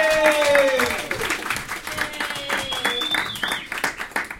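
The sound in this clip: Audience applause as a comedian walks onto a comedy club stage: a dense, steady wash of clapping that runs for about four seconds and eases slightly toward the end.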